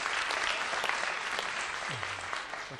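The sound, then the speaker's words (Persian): Steady applause from an audience, a dense, even patter of many hands that holds at a constant level, with a faint voice near the end. “آره مرسی، تشویقش کنید.”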